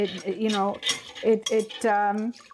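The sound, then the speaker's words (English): A whisk clinking and scraping against a bowl as flaxseed is whisked into milk, in a run of quick metallic clinks with short pauses between strokes. “As you whisk it in, even immediately, you can feel the texture of your milk change as the flaxseed starts to soak.”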